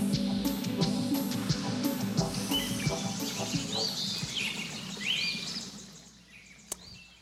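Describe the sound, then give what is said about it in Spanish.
Birds singing, with a few bright chirps and rising whistled calls standing out in the second half over a dense, continuous background. “En estos momentos usted está escuchando un sonido de pájaros”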